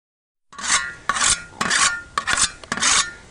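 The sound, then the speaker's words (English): A sharpening stone rubs along either edge of a long scythe blade, making repeated gritty, rasping strokes in a steady back-and-forth rhythm that come a little quicker toward the end, with no talking. “That sound is the sound of a stone going against either edge of the long blade of a scythe.”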